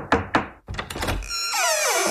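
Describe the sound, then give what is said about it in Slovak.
Knocking on a door: a few sharp raps, two spaced apart and then a quicker cluster, each a brief hard thud. “Zo zaujatia ju vyrušilo zaklopanie na dvere.”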